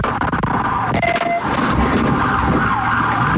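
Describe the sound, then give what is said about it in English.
A siren wails during a police vehicle pursuit in Fernandina Beach. The loud, wavering tone sounds continuously over rumbling road noise. “Sound from a vehicle pursuit in Fernandina Beach. Deputies arresting a man they call the Lego Bandit.”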